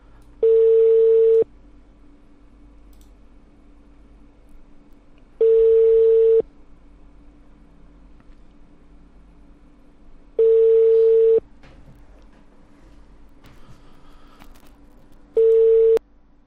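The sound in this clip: Telephone call tones for a subscriber who cannot be reached: four steady mid-pitched beeps, each about a second long and spaced about five seconds apart, over a faint continuous line hum.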